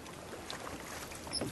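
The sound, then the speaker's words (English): A rowboat approaches across open water, heard as a faint, steady wash of water with soft splashy sounds that grow slightly more distinct toward the end. “I see a boat. It's a rowboat. There's someone coming this way.”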